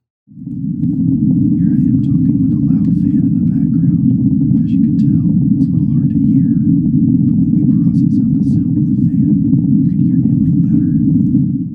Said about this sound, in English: Here I am talking with a loud fan in the background. As you can tell, it's a little hard to hear.